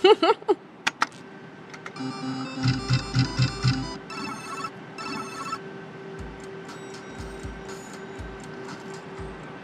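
A Book of Ra online slot machine spins a round on a 1 euro stake and pays nothing, giving electronic jingling tones and a short run of rhythmic beeping pulses after a few sharp opening bursts, then a steadier electronic hum.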